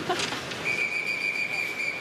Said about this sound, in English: A lot of whistles there. I'm not sure why. Seems a little excessive.